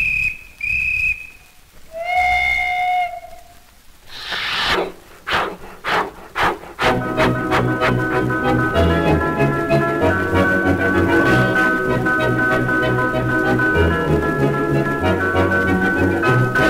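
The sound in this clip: A dance orchestra imitates a train departing. Shrill, steady whistle tones and a hissing burst come first, then a rhythmic chugging beat running into full, loud band music.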